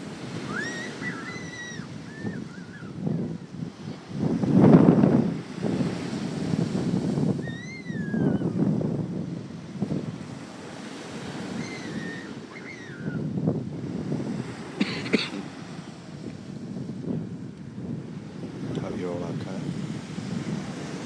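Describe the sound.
Rough sea and wind on a beach: a continuous roar of surf mixed with gusty wind buffeting the microphone, swelling loudest around five seconds, then rising and falling irregularly throughout.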